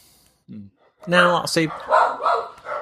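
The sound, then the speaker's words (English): Dogs bark in a house in a few short, harsh bursts, one brief yelp before a louder cluster. A person talks once the barking stops. “More dogs.”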